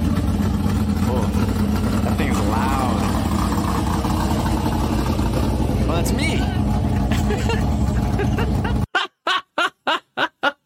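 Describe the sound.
Loud, steady engine roar from a car played back from a video, with voices and laughter over it; the roar cuts off near the end, leaving a few short bursts.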